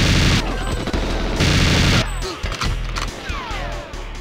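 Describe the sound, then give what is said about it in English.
Rapid gunfire from the RCP-90 weapon in the N64 video game Winback, a dense, loud, continuous clatter of shots and booms that barely lets up. “Okay, so this is the RCP-90. It was. And this thing is the greatest freaking weapon”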